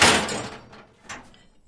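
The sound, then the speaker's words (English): Iron shackles clank as they are fastened on a slave's ankle and locked with a padlock: a loud metallic clunk, then a quieter second knock a moment later. “Then we pull the first one and the second one on the ankle of the second slave, and then we lock it together with padlock.”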